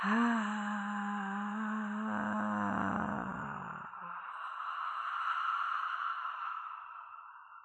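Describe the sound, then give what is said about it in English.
A slow, deep exhalation during a guided breathing exercise, voiced and tonal at first, then turning into a long, breathy hiss that carries on steadily and fades out with no speech. “So you breathe in, and as you breathe out, very slowly, I'm doing it with you,”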